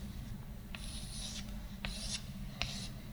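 Drawing on a board gives three short, faint scratchy strokes spaced about a second apart over a steady low hum.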